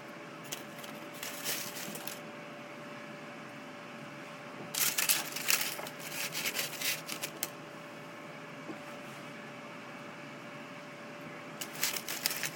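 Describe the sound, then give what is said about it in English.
Homemade steak fries are tossed into olive oil, making a few bursts of wet rustling and clattering separated by quiet pauses, with a faint steady hum underneath. “Put the cap back on the olive oil. And take these steak fries that I made, put them in the olive oil.”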